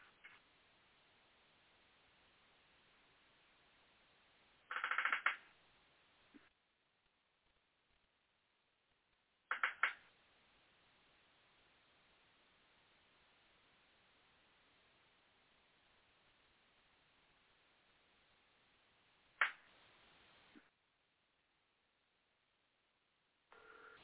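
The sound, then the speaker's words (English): Telephone line audio while dialing into a conference call: a few short tone bursts, separated by long stretches of faint, muffled line hiss. “And so hang up, dial into that number, and then we'll see if we're on.”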